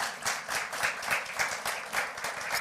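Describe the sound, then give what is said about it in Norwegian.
An audience applauds a preacher with a faint but continuous patter of many hands clapping, softly swelling and easing in an even texture. “Skal vi gi han en applaus da?”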